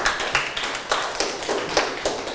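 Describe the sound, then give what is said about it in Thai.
Students in a classroom clapping for a classmate: many overlapping claps form a busy, irregular patter, with a few sharper claps poking out above the steady wash of sound. “ปรบมือให้เพื่อนนะครับ”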